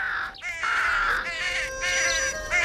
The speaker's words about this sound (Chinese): 那只受伤的小乌鸦痊愈了